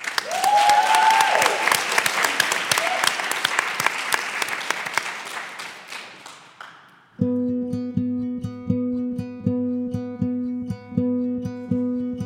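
Audience applause welcomes a band to the stage, loud and dense for about seven seconds, then dies away as the band's music starts with a steady, repeating tonal pattern.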